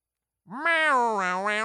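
A bright, buzzy synthetic tone opens Brock Lesnar's entrance music. It swells in suddenly after a short silence, rises slightly, then holds with a wobbling, wavering pitch.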